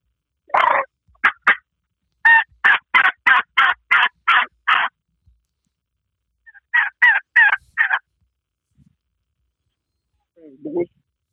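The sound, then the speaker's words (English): A free-reed crow call with a batwing-cut reed that has a flap in the middle gives raspy, crow-like caws in loud bursts: a few short caws, a quick run of about eight, then a group of four, and a faint last note. “It's a free read call. It's a bat wing cut. That is. It's got a flap in the middle. It sounds good.”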